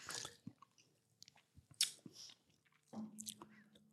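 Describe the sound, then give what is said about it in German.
Soft mouth sounds of someone taking a sip while tasting a drink: a few quiet smacks and a short airy slurp, alone without talk. “Na gut, ich muss jetzt einmal einen Schluck nehmen.”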